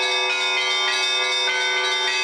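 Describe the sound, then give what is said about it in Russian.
Church bells ring from a belfry of named bells, a dense, loud wash of overlapping bright bell tones sustained through the whole short stretch, with no voices. “Колокол – как голос Бога, который пробуждает человека к покаянию, к молитве, пробуждает его совести. Наш звон, он рождает в душе теплые чувства.”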